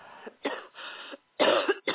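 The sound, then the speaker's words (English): Coughing during a deliverance prayer session, as people cough to expel spirits: several short, rough coughs come in separate bursts, with the loudest and fullest pair near the end. “Now take a deep cough and cough them all out.”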